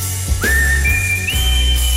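A person whistles a song tune: a clear, bright high note slides up and holds, then steps up to a higher sustained pitch, over a low, steady backing.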